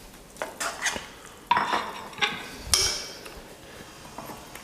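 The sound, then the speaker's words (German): A bowl being moved aside in a kitchen, a few hollow knocks and scraping clatters of dishware against a surface, with a sharper ceramic clink near the end, and no talking. “So, ich nehme mal hier die Schüssel ein bisschen weg, dass wir hier gleich mal anrichten können.”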